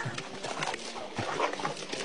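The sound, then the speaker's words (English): Two dogs fighting, heard as dense, rough snarling noise that runs throughout with uneven louder bursts and no talk. “She's got two or three great dogs, Bama and Barkley. They got in a little fight here.”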